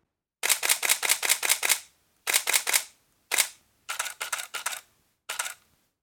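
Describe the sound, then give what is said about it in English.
Camera shutter firing in silent and standard modes, about 15 centimeters from the mic: crisp, bright mechanical clicks in rapid bursts of several shots, separated by short pauses, with one lone click and a final pair, no voices. “Both of these were recorded with the camera about 15 centimeters from the mic, so you can tell that the silent mode is much quieter. Both sound great, but I really like the standard shutter sound myself.”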